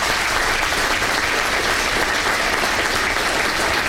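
An audience applauds a speed skater being honoured at his old skating club in Deventer, a dense, continuous clapping that stays loud and even throughout without pause.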